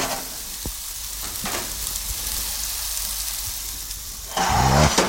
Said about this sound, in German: So, und jetzt tun wir diese herrlichen Fleischlaberln. Hörst du das Brutzeln?